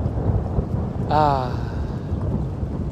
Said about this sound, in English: wow, you guys are about to hear some incredible thunder.